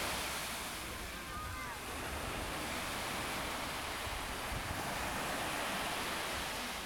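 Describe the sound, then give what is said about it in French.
Sea waves washing in as a steady, dense roar of surf noise, fairly faint and continuous without distinct breaks. “Cette odeur saline me remplit les narines. Chaque vague apporte en elle un air d'étranger.”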